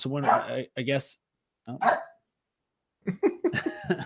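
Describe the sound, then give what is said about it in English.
An excited pet dog barks in a few separate bursts of sharp, tonal barks, with short silences between them. “my dog's fired up about the Utes as well. So if you hear her there”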